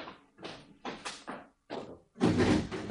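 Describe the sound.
A door is handled and opened after a doorbell in an Egyptian radio drama. A few separate knocking and rattling bursts with short pauses lead into a louder, longer scraping sound at the end.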